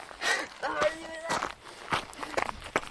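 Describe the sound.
Footsteps of people running, a quick series of soft thuds with voices talking over them.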